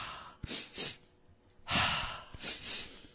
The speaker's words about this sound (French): je vous invite à peut-être suivre le rythme respiratoire d'inspirer deux fois par le nez comme ça et d'expirer par la bouche.